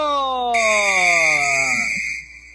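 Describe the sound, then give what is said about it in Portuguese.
A referee's whistle starts a football match between Brasil and São José, a long, shrill, sustained blast over a lower tone that slides steadily downward before fading out. “Apita o árbitro!”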